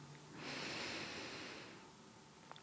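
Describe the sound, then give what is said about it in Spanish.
A deep inhalation during a guided breathing exercise, one long, soft, airy hiss that swells and then fades, faint and with no talking. “Vamos a respirar nuevamente 3 veces. Inhalamos.”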